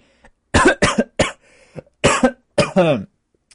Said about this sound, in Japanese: むせた、ごめん。ああ、ごめんなさい、ちょっと、むせました。